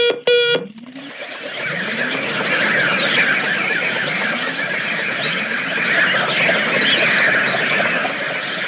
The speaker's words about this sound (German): Commander, die Fledermäuse umkreisen wieder das Raumschiff. Außenmikrofone einschalten.